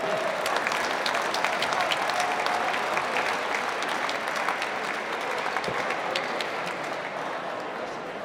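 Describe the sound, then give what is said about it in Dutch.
An audience applauds steadily and evenly during a meal at an open-house event, thanking the reception and security staff with sustained, dense clapping. “Onze ontvangst en veiligheid, mensen. Geef ze een applaus.”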